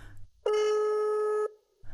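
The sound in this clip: A telephone tone sounds while a number is being dialled: one steady, unbroken tone of about a second, loud and alone.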